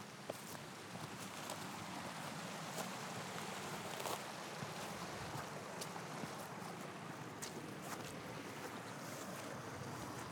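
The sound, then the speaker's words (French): Footsteps through stones and water in a Pyrenees stream: steady rushing water noise with scattered sharp clicks of stones, faint overall. “ça fait une heure qu'on est en train de marcher dans les cailloux et dans l'eau.”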